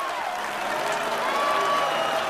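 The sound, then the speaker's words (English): Applause from judges giving a standing ovation, a dense, steady wash of clapping that holds at an even loudness from start to finish. “As the judges give Rhea a standing ovation, the applause meter reaches its limit.”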